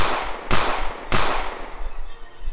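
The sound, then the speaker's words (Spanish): Two booming gunshots from a large gun ring out during a tabletop role-playing game. Each blast cracks sharply and trails into a long, rolling rumble that stays loud under steady noise. “Esta es una de las primeras veces que tienes un arma tan grande. La disparas.”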